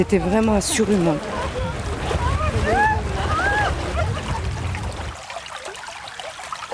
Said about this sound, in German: Er plätschert ungefährlich dahin, der Bach am Treffpunkt in Champs-Secrets